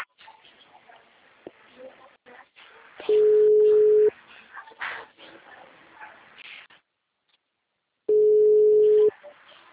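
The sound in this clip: A telephone call rings out unanswered: two long, steady, mid-pitched ringback tones, each about a second long and spaced about five seconds apart. Quieter background sounds and faint voices fill the gaps between them.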